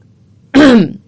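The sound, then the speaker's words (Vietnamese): A single short throat clearing, a loud, gruff rasp lasting about half a second, stands alone against near silence. “ngồi thẳng dậy rồi hắng giọng”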